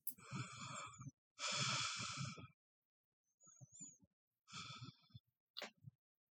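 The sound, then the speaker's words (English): Deep, slow breaths taken one after another with eyes closed, each breathy inhale and sighing exhale coming as a separate burst with short silences between, fairly loud and with no talking. “if you could close your eyes. Okay. Take 3 deep breaths.”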